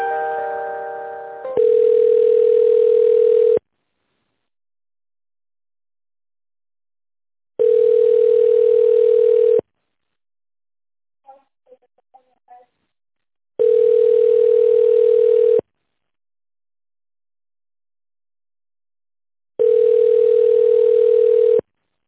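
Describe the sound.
Telephone line tones play while a call is transferred: four long, steady, mid-pitched tones at even intervals, each lasting about two seconds with silent gaps between them. A few faint clicks sound in one gap. No one speaks.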